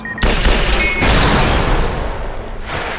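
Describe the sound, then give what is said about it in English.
Gunfire erupts in a long white hallway during a fight against robots: loud, dense bursts of shots with a sharp start, then a rough, noisy tail that slowly fades. “I pointed my gun down the hall and aimed.”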